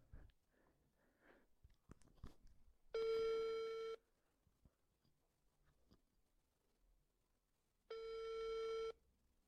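A telephone ringback tone sounds on an unanswered call: two steady, buzzing tones, each about a second long and roughly five seconds apart. Faint rustling and small clicks fill the gaps.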